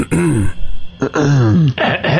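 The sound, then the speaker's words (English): A person clears their throat in a few voiced, exaggerated bursts, delivered loudly and alone. It may be a voice imitating the sound. “you hear the sound of a throat clear.”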